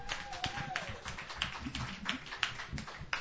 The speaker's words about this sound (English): So hey, a round of applause.